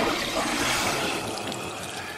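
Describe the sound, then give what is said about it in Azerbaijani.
Hot water poured over someone's head, a continuous splashing gush of water that runs steadily throughout and eases off slightly toward the end. “Başına isti su tökün. Çəkilin kənara, islanmayın.”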